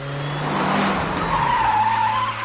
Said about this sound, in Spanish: avanza con el coche. Sale a la carretera a toda velocidad.